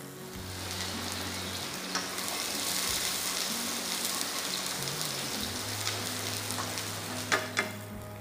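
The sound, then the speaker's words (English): Onions frying with garlic in a hot pan. A steady, crackling sizzle holds throughout, with a couple of sharper pops near the end. “Then I'm adding some onions.”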